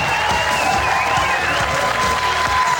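Studio audience applause and cheering for the host of a live National Lottery television show, loud and sustained throughout with dense clapping.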